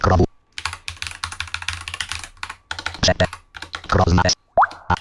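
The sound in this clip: Computer keyboard typing as web addresses are entered into the Chrome browser with a screen reader: quick clicky keystrokes come in bursts, separated by brief pauses and short snippets of voice.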